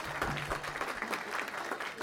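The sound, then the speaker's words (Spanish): Audience applause at a public gathering: a steady, fairly faint wash of many hands clapping that fills the whole stretch, with no single voice standing out. “Un aplauso para ellos también.”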